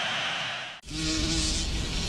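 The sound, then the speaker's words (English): A bee buzzes in a steady, droning hum with a low tone over a dense, noisy background. The sound drops out briefly near the start, then resumes and holds loud to the end. “Mom, why do bees sting? I guess they need a way to protect themselves. But they're busy making honey. Yeah, so we shouldn't bother them. If we leave them alone, they'll leave us alone. Then why is this one bothering us?”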